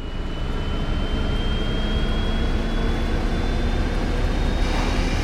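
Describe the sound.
A rocket takes off with a loud, steady roar while everything shakes. The dense rumble holds constant throughout, with a thin sustained whine running through it and no voices.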